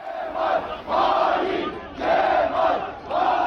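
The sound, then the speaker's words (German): CHP supporters chant a two-word slogan in unison in the evening outside party headquarters in Ankara, a loud crowd voicing steady repeated phrases with drawn-out vowels in a regular rhythm. “Verräter Kemal rufen CHP-Anhängerinnen und Anhänger am Abend vor der Parteizentrale in Ankara.”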